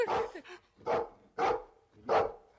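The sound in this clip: Four loud dog barks in an evenly spaced row, each a short, full bark separated by brief silences, with no voices alongside.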